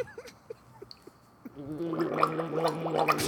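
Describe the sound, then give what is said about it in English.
Deep throaty gargling: a few scattered wet clicks and gulps, then a sustained bubbling gurgle with a rattling, wavering tone that grows louder. “All right, I got to do the deep core gargle now.”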